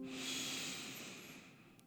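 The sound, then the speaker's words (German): A deep breath drawn in through the nose during a guided relaxation exercise, heard as a soft, steady, airy hiss that lasts nearly two seconds and fades slightly at the end, with no speech. “Einmal noch. Einatmen durch die Nase”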